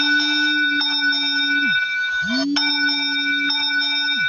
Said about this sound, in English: I've been in a Bolt cab. Apparently, that is the noise it makes.